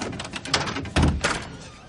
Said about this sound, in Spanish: Él abre la puerta con un codo.